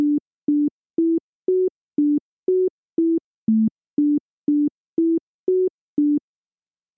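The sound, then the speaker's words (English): A simplified melody with every note kept in the same octave, played as about a dozen short, evenly spaced pure tones in a steady rhythm, their pitch stepping slightly up and down within a narrow mid-low range, with one noticeably lower note near the middle. “Now listen to a simplified version of the same sequence. In this case, all the notes are in the same octave. Same range.”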